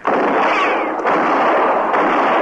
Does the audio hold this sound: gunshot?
yes